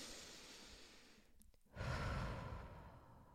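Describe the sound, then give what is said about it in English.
A single deep breath: a soft, drawn-out inhale, a brief pause, then a fuller, louder exhale that slowly fades, all quiet and close. “So, it was actually quite nice to take a deep breath then. Oh, let's do another one.”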